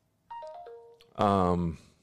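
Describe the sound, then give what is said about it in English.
A Brave browser notification chime sounds on a phone: a few quick, bright electronic tones stepping downward, then a short burst of voice. “wasn't mine, that was yours. That's a notification from Brave.”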